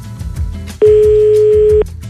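A telephone ringback tone sounds on a call: one steady, pure, mid-pitched tone lasting about a second, loud and alone over a faint low background.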